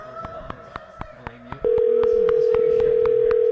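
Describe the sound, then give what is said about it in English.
A telephone call being placed: a quick run of short keypad beeps, then a steady, continuous call tone that holds loudly to the end. “We're calling someone.”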